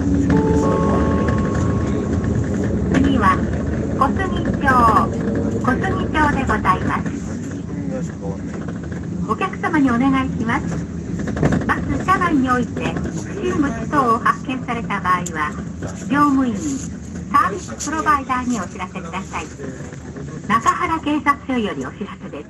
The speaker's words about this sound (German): Alles, was man hört, sind Lautsprecheransagen und ihr werdet hören, Fußball ist hier nicht angesagt.